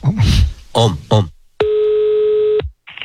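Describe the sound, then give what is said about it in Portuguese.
Talk is followed by a telephone ringing tone as a call is placed, one steady, loud, mid-pitched tone lasting about a second, with the next tone just starting at the end. “vou ligar agora pra Janaíra.”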